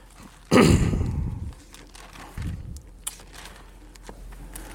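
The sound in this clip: Bible pages being turned to Ephesians chapter 2: one loud, crinkly paper sweep lasting about a second, then a smaller rustle and a few faint flicks of paper.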